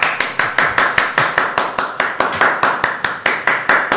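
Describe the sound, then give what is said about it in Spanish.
Hand clapping: many sharp, evenly spaced claps in a fast, steady rhythm, each with a short decay, continuing alone throughout. “¡Aplaude!”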